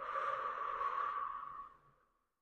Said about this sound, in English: Breathe in through the nose and exhale from the mouth.